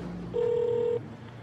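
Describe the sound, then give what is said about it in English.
A telephone is dialed for a phone call, giving one steady electronic tone about two-thirds of a second long over faint background hiss. “Before we leave America, there's one last phone call I want to make.”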